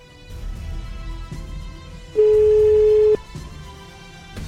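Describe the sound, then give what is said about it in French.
A single steady telephone ringback tone, about one second long, sounds loudly over a continuous low background bed as a call is placed and rings out. “Allez, c'est parti, on appelle Sébastien.”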